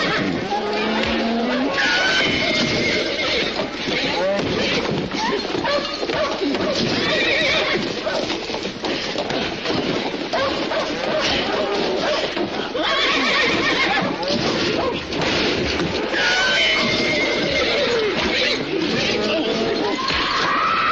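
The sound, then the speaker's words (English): Horses neigh in alarm as a fistfight rages nearby, with cows also present. Loud, shrill whinnies repeat over a continuous dense commotion and the clatter of hooves. “Their violence alarms the horses and then the cows. The animals try to break out.”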